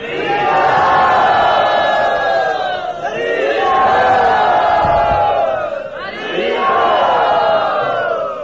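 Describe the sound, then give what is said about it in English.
A crowd loudly chants "Hari Bol" in welcome, with many voices joining in full-throated, drawn-out phrases that repeat about three times with short dips in between. “Please, very loudly, let us welcome him by saying Hari Bol.”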